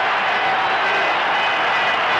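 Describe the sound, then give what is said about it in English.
Crowd at an Oakland Coliseum football game roars in a dense, continuous wall of cheering noise that stays loud and steady throughout. “The crowd going wild here at the Coliseum.”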